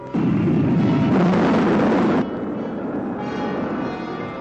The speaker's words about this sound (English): Rocket three, second stage. Fire.